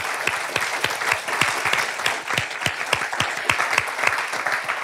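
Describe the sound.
Audience applause for the actors after staged scenes at a Cato Institute event: dense, steady clapping from many hands that runs the whole time without a break.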